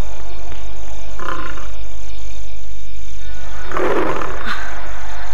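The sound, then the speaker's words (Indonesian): A tiger roars twice, with a short rough roar and then a longer, louder one, over a constant low hum, as the animal strays into a village. “Suara aum harimau.”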